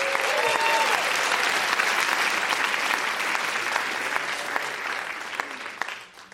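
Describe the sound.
An audience at a Toronto stage show applauds as a performer comes on: steady, full clapping that holds evenly, then fades out quickly at the end.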